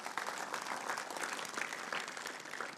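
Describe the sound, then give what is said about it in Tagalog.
Congregation applause in a church during a sermon, dense steady clapping sustained throughout at a fairly soft level, with no voices on top. “Palakpakan nga po natin yung Panginoon.”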